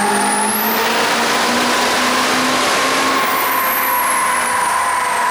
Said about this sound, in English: Sounds really different. I can hear the tires on this one.